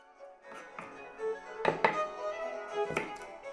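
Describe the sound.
Onion being chopped with a knife in a kitchen, a few sharp knocks against the board sounding faintly over a violin concerto playing on the radio.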